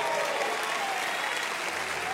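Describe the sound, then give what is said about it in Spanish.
Applause in a church service for the Lord, a steady, dense wash of clapping from a crowd that holds at an even level throughout, with no pauses. “Alguien dele un aplauso al Señor.”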